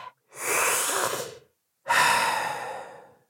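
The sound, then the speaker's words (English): One deep breath taken before a final trivia question: a long breathy inhale, a short pause, then a slow, fading exhale, heard alone. “Deep breath.”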